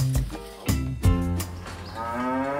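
Cows being brought into a barn moo loudly, with a few deep, drawn-out lows that overlap one another.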